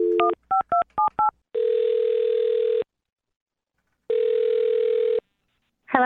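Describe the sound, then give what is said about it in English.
A telephone number dialed on touch tones: a rapid series of short beeping dual tones, then two long, steady ringing tones separated by silence. “All right, I'm going to dial her number right now, okay? Okay, I'm ready. All right, here we go.”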